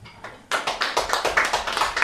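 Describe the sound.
Audience clapping to vote in a live guessing game, starting abruptly after a brief quiet moment and continuing as many brisk, fairly rhythmic claps at moderate loudness.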